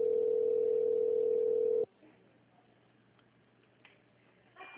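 A telephone tone plays while a call is being transferred to an agent: a loud, steady single-pitch tone holds for about two seconds, then cuts off to faint line hiss with a low hum underneath.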